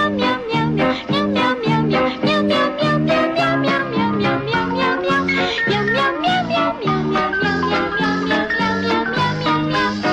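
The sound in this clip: Cats meowing in a cat food commercial, many quick meows strung together in a steady rhythmic, tune-like pattern, loud and continuous throughout.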